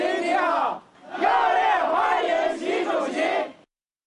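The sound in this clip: Crowd of overseas Chinese and Chinese company representatives in New Delhi greets Xi Jinping, many voices chanting loudly in unison in two bursts separated by a short pause, then stopping.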